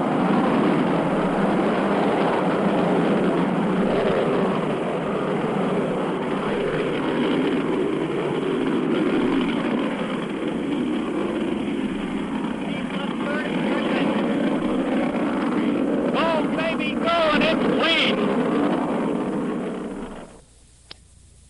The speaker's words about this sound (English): The MA-6 vehicle has lifted off. Trajectory looks good. The MA-6 vehicle is off the launch pad.